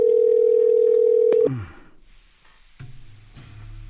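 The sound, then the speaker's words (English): Telephone tone from an outgoing call: one steady, mid-pitched tone holds for about a second and a half, then cuts off abruptly and leaves faint low rumbling noise. “I'm calling random people here.”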